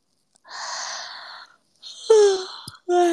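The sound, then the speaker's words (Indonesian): A person yawning: a long breathy inhale, then a voiced, tone-like exhale that sinks slightly in pitch, followed by a brief catch and the start of another breathy sound. “Maaf guys, aku menguap.”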